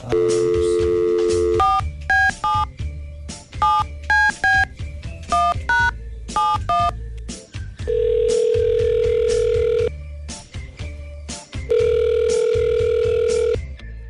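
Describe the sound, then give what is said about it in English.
Telephone dial tone as a call is placed: a steady tone, then a quick run of many short keypad beeps, then two long, loud, steady tones. “We're going to give her a call right now.”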